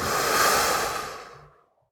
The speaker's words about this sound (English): Take another breath in slowly. And a breath out.